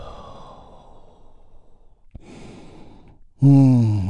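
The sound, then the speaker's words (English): A big, deep healing breath as a breathing exercise: a long, soft, airy inhale, then a sudden loud, voiced sighing release that trails off. “we will lead the way by taking a big, deep healing breath. All together, here we go. And release.”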